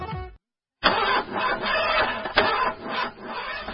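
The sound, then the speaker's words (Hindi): A vehicle engine cranks but fails to start because of a battery problem: a short grinding burst, a brief silence, then a longer, steady mechanical churn with a slightly pulsing rhythm that never catches. “ला फिर यो गाड़ी ने धोखा दिने भाई जहिले पनि ब्याट्रीकै समस्या ब्याट्रीकै समस्या”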